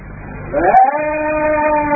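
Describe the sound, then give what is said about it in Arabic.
A single long sheep bleat that swells in partway through and holds, wavering, to the end, loud over a low background murmur. “أتسمع يا أبتاه؟ خروف عاقل يرد عليك.”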